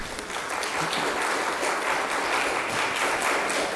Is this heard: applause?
yes